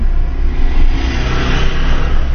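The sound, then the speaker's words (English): A car drives along a tar road in Kruger National Park, heading from Skukuza toward Lower Sabi. Its engine and tyres make a steady, loud rumble that continues without a break, with no talk. “Okay, so we're setting off on the road. It's a tar road that takes us all the way from Skukuza to Lower Sabi.”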